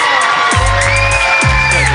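A party crowd cheers and whoops to welcome a guest, loud and sustained, with a rising whoop standing out over the din.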